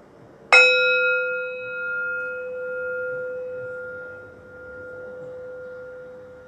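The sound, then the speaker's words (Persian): A single bell strike during a breathing meditation, a bright, clear tone that rings on in a long, pure, steady sustain for several seconds with no talk. “اجازه بدین فرکانس این زنگ افکار مزاحم از ذهنتون بیاد.”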